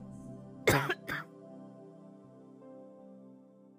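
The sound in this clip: Coughing and throat clearing from allergies: a harsh cough burst followed by a shorter, rougher throat clear, both loud and close together, over a steady low background tone.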